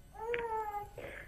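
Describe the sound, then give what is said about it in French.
A young daughter cries in the background with a faint, drawn-out wail at a steady pitch, followed after a brief gap by a shorter whimpering cry. “Non, non, j'ai juste ma fille qui pleure derrière, ça me déstabilise un peu.”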